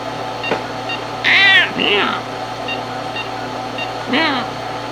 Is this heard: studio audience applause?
no